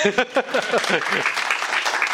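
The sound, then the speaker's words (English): Audience applause after a talk, rising as a spoken voice fades out and then continuing as a steady, dense patter of clapping through the second half. “In fact, you can applaud.”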